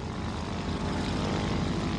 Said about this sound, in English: And here comes a plane.